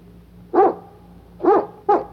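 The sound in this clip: A dog barks three times, short mid-pitched woofs with the last two closer together, standing alone over a faint low hum.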